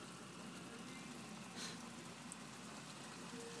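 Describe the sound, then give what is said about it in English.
Mixed rain with some ice falling, a faint, steady and even hiss with a low rumble beneath it. “And it's mixed rain. There's some ice and some just regular water.”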